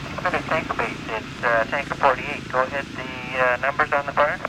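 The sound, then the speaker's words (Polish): A small plane that will tow a glider drones at a small but busy airfield in Smithers, a steady engine hum running underneath a voice talking throughout. “No ten hałas jest powodowany przez jakiś mały samolocik tutaj, który będzie holował szybowca.”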